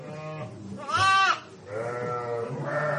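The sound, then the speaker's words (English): Lambs bleat in a barn on a sheep dairy farm that supplies milk for Roquefort. A few wavering, harmonic bleats follow one another, and the loudest, highest cry comes near the middle. “We're here at the Séguin farm in August, and there are lambs in the barn”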